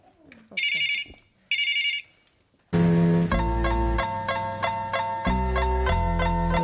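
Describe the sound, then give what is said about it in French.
A telephone rings for an incoming call with two short electronic trills, and then loud rhythmic music takes over. “Excusez-nous, il y a une urgence là. On va prendre cet appel de Rodna et on revient sur vous.”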